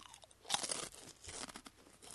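Dry, crisp crunching as someone bites into and chews a small, rectangular, bite-sized rice cracker: a sharp burst of cracks followed by a softer run of crunchy chewing, quiet and with no talk.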